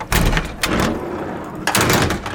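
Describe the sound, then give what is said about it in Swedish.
Heavy hatches swinging open on a Stridsfordon 90 combat vehicle give a few loud metallic clunks and scraping bursts, with quieter low rumbling between them. “Här sitter vi, 6 stycken soldater, och ja, de här luckorna här går ju att öppna.”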